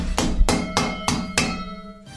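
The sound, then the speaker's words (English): Six sharp metallic clunks from a tiny hammer, each ringing briefly with a bright decaying tone. The first five come at a steady pace, then a short pause before the last strike. “Listen to that clunking sound. Listen to that. That is the sound of a tiny hammer”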